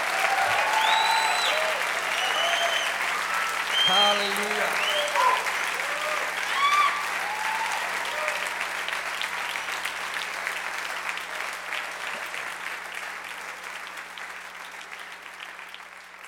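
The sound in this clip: Loud applause fills a church worship service, a dense and steady clatter of clapping that slowly fades. Voices shout and cheer over the clapping.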